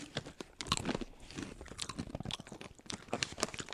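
A chickpea snack with a cereal-like texture is chewed, making many irregular crunchy bites that are faint and heard without talk.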